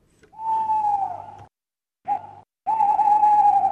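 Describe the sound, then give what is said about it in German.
Owls calling at night: three drawn-out, whistled hoots held at a steady pitch, with a short middle call between two longer ones, the last running to the end. “So und ähnlich rufen die Käuzli und Eulen, meistens in der Nacht.”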